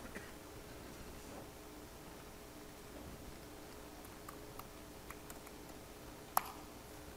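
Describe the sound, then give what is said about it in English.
Light key clicks as a session number is typed on a computer keyboard. A few sparse taps are scattered over a steady background hiss, and one sharper click lands near the end. “If I can type my own session number correctly.”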